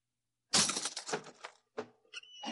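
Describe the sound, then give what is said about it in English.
A lock being smashed open: a sudden loud crashing impact with rattling, breaking noise, followed by a few sharper knocks and clatters. “Let me out. I'll have to smash the lock.”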